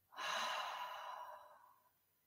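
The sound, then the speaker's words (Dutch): A deep breath in through the nose and out through the mouth, heard as one long, airy rush that swells quickly and fades over about two seconds, alone without talk. “Adem diep in door je neus. En uit door je mond.”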